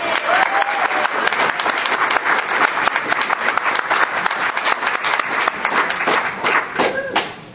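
Steady applause at a California Council of the Blind meeting for its long-serving treasurer, sustained clapping from many hands that holds level and then tapers off at the end.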